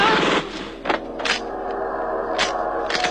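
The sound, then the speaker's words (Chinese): Gunfire and explosions as a drama sound effect for a sudden shootout at a guesthouse: a few sharp, loud blasts rise out of continuous rumbling, crackling noise that runs through the whole scene. “顿时枪声大作，爆炸迭起。”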